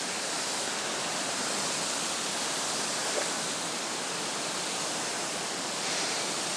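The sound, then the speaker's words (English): A small waterfall runs beneath an old late-18th-century mill beside its wheel pit, making a steady, unbroken rush of falling water at an even loudness throughout, with no voices. “you can probably hear the little waterfall in the background dropping down, and it runs underneath the second mill.”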